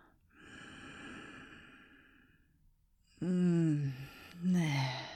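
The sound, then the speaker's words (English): A deep breath taken during a neck massage: a long, soft breathy inhale, then after a pause two louder voiced, sighing exhales that drop in pitch. “Take a deep breath now. Nice deep breath.”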